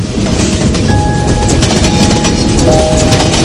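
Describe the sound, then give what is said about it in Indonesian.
A train enters a tunnel near the Soekarno-Hatta bridge, heading toward Kiaracondong station, with a loud, dense, continuous rumble and rattle of wheels, and thin squealing tones briefly rising over the din. “Sampai kereta ini memasuki semacam terowongan.”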